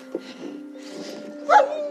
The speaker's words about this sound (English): You have working dogs? So let's meet the dogs.